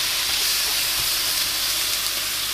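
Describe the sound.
Bacon and steak sizzling as they fry, a steady, dense hiss that holds evenly without pause.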